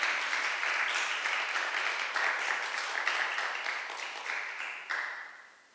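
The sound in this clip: Audience applause welcoming a guest speaker to teach at a transformation course session, a dense, steady wash of clapping that holds for several seconds, then tapers off near the end.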